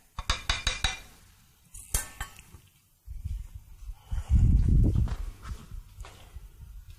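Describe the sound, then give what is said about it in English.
A spoon clinks sharply several times while stirring a lye solution in a container, then gives way to a lower, rougher churning stir. “We start stirring, and what I do now is I'm going to stir a while, and then I'm going to leave, and then come back.”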